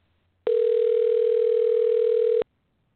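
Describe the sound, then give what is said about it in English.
A telephone dial tone plays as a line is opened to dial out: one steady, loud, unbroken tone of about two seconds, with near silence before and after it. “Dialing out.”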